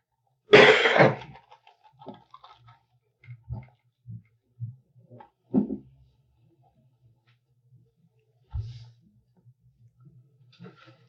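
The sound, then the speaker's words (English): A person with a cold gives one harsh, loud cough at the start, followed by a few softer, scattered sounds separated by quiet gaps. “did you get that cough since you came here?”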